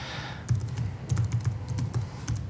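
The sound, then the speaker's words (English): Keys clatter on a computer keyboard as a username is typed into a login page, many quick, uneven taps in a brisk rhythm. “So I try to log in. Again, I can type in my real username, or I can just use... I'm just going to use Bob, actually.”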